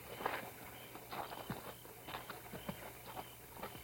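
Soft footsteps of two people setting off on a walk together: many faint, steady steps in an even rhythm, with no voices.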